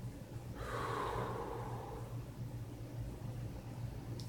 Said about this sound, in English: So, take a deep breath in. And slowly let it out.